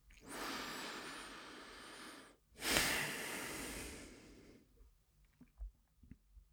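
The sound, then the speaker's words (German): A deep breath in and out during a guided relaxation exercise: a long airy inhale, a short pause, then a fuller, rushing exhale, followed by faint scattered small noises. “wir nehmen noch ein letztes Mal einen tiefen Atemzug ein und aus”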